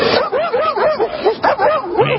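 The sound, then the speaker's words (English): A fat Labrador service dog barks loudly in a rapid, continuous run of many deep, rounded woofs during a police encounter. “It's a fat lab barking.”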